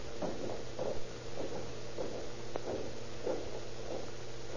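Footsteps of people climbing a flight of stairs: a steady series of soft, dull thuds at an even walking pace, set against a constant low hum.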